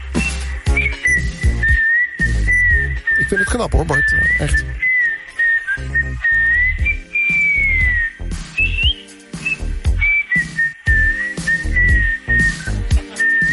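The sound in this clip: A producer whistles the whistle melody of a song live, a clear, high sustained tune that slides gently between notes over a rhythmic backing; a voice briefly comments.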